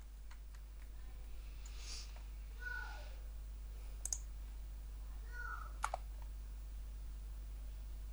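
Computer mouse clicks during a software tutorial, a few brief, sharp, faint clicks standing out over a steady low hum.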